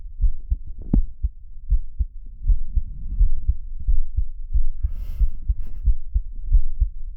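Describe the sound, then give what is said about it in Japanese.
A heartbeat, many soft low thuds in a steady, regular rhythm, often in paired beats, continuing alone without any talking. “心臓の音が聞こえる？”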